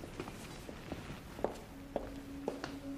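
Soft footsteps of someone walking away. The faint treads fall at a fairly even walking pace over a quiet background.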